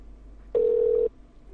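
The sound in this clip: A single keypad tone as a phone dials the debt-collection company MBA Finance. It is one steady beep, about half a second long, against a faint background.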